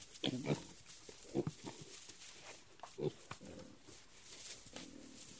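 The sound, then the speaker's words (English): Faint grunts and snuffles from seven-week-old Tamworth piglets weaned that day, a few scattered soft snorts rising above a low, steady hiss, with no talk. “What we're looking at here are some little seven week old Tamworth piglets. They were just weaned today.”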